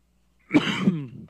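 One person clears a dry throat in a single rough, rasping burst lasting under a second, heard alone without talk.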